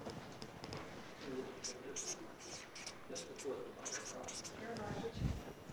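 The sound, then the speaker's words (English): Faint, scratchy writing strokes as verse references are written down, coming in short bursts of squeaky scraping under a voice talking. “So I'm going to write these down up here.”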